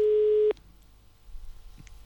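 A telephone busy signal on an outgoing call: one loud, steady half-second tone that cuts off abruptly, leaving near-silence with a faint low rumble.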